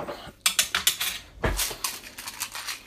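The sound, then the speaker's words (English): A small Kit Kat mug and a teaspoon being handled: many light ceramic clinks and metallic taps in an irregular rhythm, with one duller knock partway through and no talk. “I'm just about to get my small Kit Kat mug and a teaspoon and”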